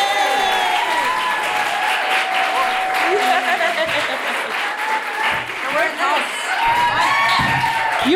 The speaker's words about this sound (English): Please put your hands together and make extraordinary crazy ex-girlfriend noises for Rachel Bloom!